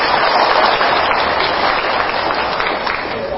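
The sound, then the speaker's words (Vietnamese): Audience applause fills the hall during a Buddhist monk's lecture. The clapping is loud, dense and steady, a continuous wash of hands that fades only slightly toward the end. “À, phải vỗ tay đi.”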